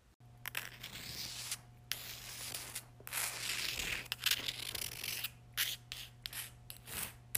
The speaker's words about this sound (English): Now take this chalk and draw a circle on the floor for me.